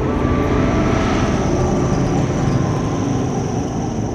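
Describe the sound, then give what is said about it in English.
An arrowhead-shaped aircraft flying over a mansion gives off a loud, steady engine roar that holds a continuous drone without breaks. “Katniss is close to the mansion. An aircraft flies above. Katniss turns to see it.”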